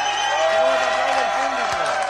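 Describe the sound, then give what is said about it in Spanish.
Ovation from a concert crowd at a lively local event: a thick, continuous roar of clapping and cheering with voices rising through it, loud and sustained throughout. “Sí, señora, mira qué ovación”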